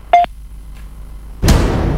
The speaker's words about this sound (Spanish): Por favor, deje un mensaje después del tono.